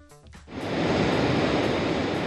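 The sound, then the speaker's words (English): Ocean waves break on a San Francisco beach, a broad, loud, steady rushing wash that swells in after a brief quieter moment and holds alone without letup. “That was the sound of waves at San Francisco's Ocean Beach, by the way.”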